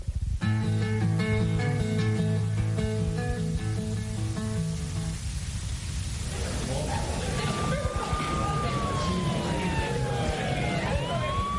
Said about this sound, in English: Sounds like another emergency coming in.